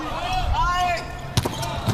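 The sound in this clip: A ball struck for a serve in a sports match with the German team, two short thumps under a commentator's talk.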